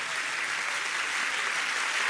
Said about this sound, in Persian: یک دقیقه همین جوری کف بزنید